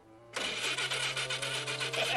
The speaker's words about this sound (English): Shaggy pushes a button. The engine propels in Dracula's hands and flings him forward.